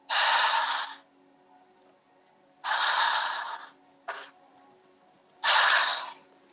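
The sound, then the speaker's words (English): Heavy breathing in and out: three long, loud breaths of about a second each, separated by quiet pauses, with a short, sharp intake between the second and third. “Breathe in and out 5 times heavily.”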